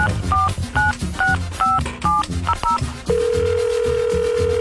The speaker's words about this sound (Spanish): Vamos a marcarle.